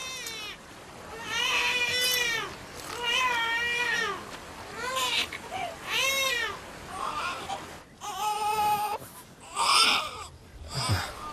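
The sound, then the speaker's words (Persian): A baby crying in many wailing bursts, each cry arching up and down in pitch. The cries come in a broken, uneven rhythm, with no other voices. “بچه داره گریه میکنه.”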